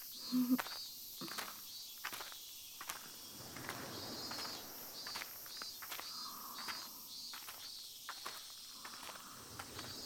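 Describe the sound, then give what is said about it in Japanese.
Footsteps walking along a path, a series of soft, regularly spaced steps over a constant background of chirping crickets and insects. “とりあえずこのまま歩こっか。”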